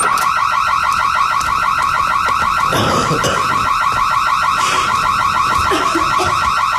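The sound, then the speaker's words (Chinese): An alarm goes off with a loud, rapidly warbling electronic tone that repeats steadily from start to end, with brief bursts of rustling noise in the middle. “什么声音啊？这是 报警器。”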